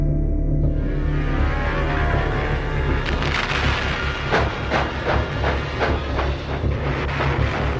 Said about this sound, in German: Ein Zug fährt durch Deutschland. Aus dem zerstörten Berlin Richtung Süden.